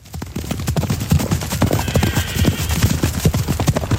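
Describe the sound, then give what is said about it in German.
Horses gallop over a mountain pasture in the Safiental in Switzerland, their hooves pounding in many rapid, overlapping thuds that stay loud and steady throughout. “Im Moment galoppieren die Ross vor Corinna Brunner noch über die Weide im Safiatal.”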